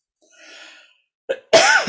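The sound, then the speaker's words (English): A short cough brought on by a tickle in the throat: a faint breathy intake, then a quick small burst followed by a louder, harsher hack. “I really got this thing. If I didn't know I was going to have a tickle in my throat, I would have popped in a Ricola.”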